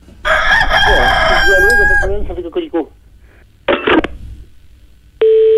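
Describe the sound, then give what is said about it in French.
A rooster crows once, loud and drawn-out, heard during a telephone call. A few short scratchy noises follow, then a brief steady electronic telephone tone. “Ah ben ça cocoricote tout le temps.”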